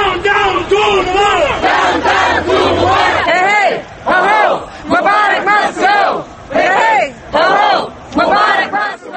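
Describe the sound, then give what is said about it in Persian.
Crowd of protesters against Hosni Mubarak's regime in Egypt chanting in unison, loud rhythmic shouted phrases repeating in steady bursts with a dense roar of many voices throughout. “این نوار از اعتراضهای علیه رژیم حسنی مبارک در مصر است”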